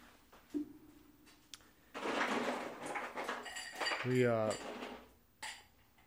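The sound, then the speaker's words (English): A cocktail being stirred with ice, with clinking and scraping of a utensil against ice and glass, a faint, steady jumble of small knocks and rattles that swells in the middle and eases off toward the end. “So we're just going to stir this until it gets cold. Then we're going to fill our glasses with ice.”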